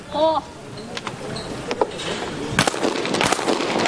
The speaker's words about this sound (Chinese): 印度队的女选手达里瓦尔将进行自己的最后2个叠靶的射击，高台的双靶